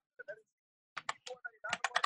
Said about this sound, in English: Give me one sec. I gotta type that shit in.